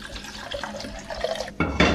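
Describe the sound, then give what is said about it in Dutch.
Water poured onto sushi rice, a steady splashing, gurgling stream that grows louder toward the end, heard on its own without talk. “Kijk, dit is prachtige sushi rijst. Ik neem ongeveer anderhalf, nou bijna twee keer zoveel water.”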